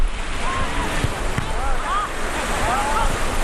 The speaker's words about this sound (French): La plage est magnifique, l'eau turquoise, le sable noir et les collines autour sont verdoyantes.